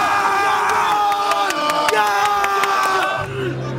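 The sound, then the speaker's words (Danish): Crowd cheering at the AGF gold celebration in Aarhus: a loud mass of voices shouting and chanting, with sustained sung tones running through it, fading somewhat near the end. “der blev afholdt her i det jyske i går. Nærmere betegnet i Aarhus. Der var guldfest. Lad os prøve lige at høre det her.”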